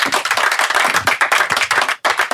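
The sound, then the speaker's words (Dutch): Audience applause, a brisk, loud patter of distinct hand claps that cuts off for an instant near the end, then picks up again. “Ja, applaus.”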